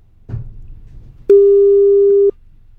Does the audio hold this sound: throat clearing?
no